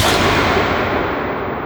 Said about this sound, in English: This is an old gun. Oh, the 44 Magnum.